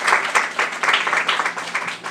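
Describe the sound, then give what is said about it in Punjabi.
A church audience claps together to glorify God, a lively, dense run of applause with a slightly pulsing rhythm, fairly loud and without talking over it. “ਔਰ ਤਾੜੀ ਲਾ ਕੇ ਪਰਮੇਸ਼ਰ ਦਾ ਨਾਮ ਕਰੀਏ। Let's give glory to God.”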